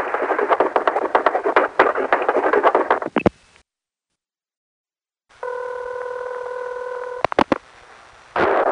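Telephone dialing tones, a steady electronic tone holding for about two seconds after a stretch of busy sound and a short silence, followed by a few sharp clicks and a burst of noise.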